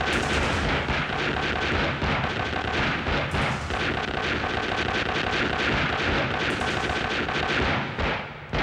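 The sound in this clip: Gunfire rings out in a film shootout against tomato commandos after the lights are switched off: a loud, dense, continuous barrage of rapid shots fills the whole clip without pause.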